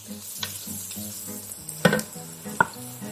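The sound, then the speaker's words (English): Garlic frying in a pan while being stirred, a steady hissing sizzle over a low hum, broken by soft scraping from the utensil and two sharper knocks against the pan. “Add the garlic, give it a nice stir. You want to cook it for about 1-2 minutes until it's nice and fragrant.”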